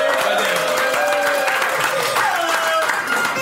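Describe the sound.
An audience cheers and applauds in a dense, steady burst of clapping and shouting that stays loud for the whole moment.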